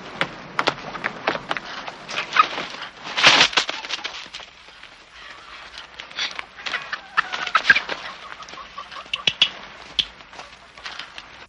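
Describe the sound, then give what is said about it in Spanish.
Quail clucking in a farmyard as they are gathered from the pen: short, irregular clucks and scuffling noises come in scattered bursts with quiet stretches between them. “En el corral, Tita coge codornices.”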